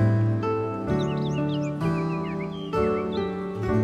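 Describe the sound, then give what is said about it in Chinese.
Birds chirping in a tree-lined setting: quick, high calls with rising and falling flicks in scattered clusters over a steady sustained tonal hum. No breeze is distinctly audible. “你听到微风拂过树林的声音，小鸟的叫声，”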